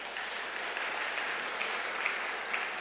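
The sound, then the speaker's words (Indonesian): Applause welcoming new university students at a church service: a steady, even patter of clapping from the audience, fairly faint and unbroken throughout. “Mahasiswa baru, wah puji Tuhan. Kita sambut dengan aplaus ya.”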